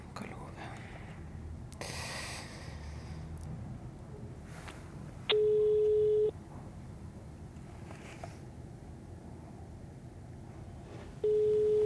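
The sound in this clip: Telephone ringing tone, two steady one-second tones a few seconds apart, sounding over a low, rustling background noise.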